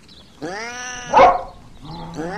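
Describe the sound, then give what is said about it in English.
A dog on a lead barks at a cat in loud, drawn-out, tonal yelps. One sustained whining cry ends in a sharper burst, then another cry begins. “Then maybe you'd better hold on to the lead and control Fido. Oh, come on, Fido! Quiet! Calm down, boy!”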